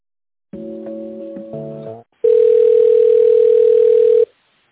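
Telephone tones while a call is transferred to another person: a short run of stepped, chiming multi-note tones, then a brief gap and a steady single ringing beep lasting about two seconds.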